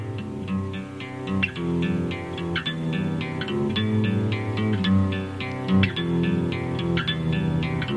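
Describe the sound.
Lo-fi alternative rock song with a worn, crackly, hissy, distorted sound: effect-laden, echoing instruments over a steady beat of drum hits, loud and continuous with no talking.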